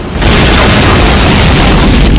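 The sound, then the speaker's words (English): A spacecraft is blown to pieces in a massive explosion: a loud, dense roar that swells within the first moment and holds as a sustained, rumbling blast. “Miller looks out to see the Lewis and Clark being blown to pieces.”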